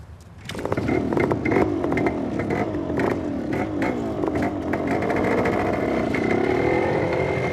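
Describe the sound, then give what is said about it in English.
A vehicle engine starts and drives off at speed across a parking lot. After a brief quiet, a sudden rough roar rises into sustained loud engine noise with clatter and revving for several seconds. “Neckbone cranks the engine and the boys set off at speed across the parking lot, leaving Carver to watch them go.”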